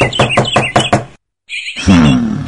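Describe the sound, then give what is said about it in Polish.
Knuckles rapping on the front door of a house: a quick run of several sharp, loud knocks, then a short silence before another sound follows. “To więc bądźmy kulturalni i zapukajmy.”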